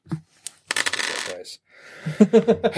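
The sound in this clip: Dice roll and clatter across a table during a tabletop game, with a scattered rattle early on and then a rapid run of several sharp bouncing clicks at the end.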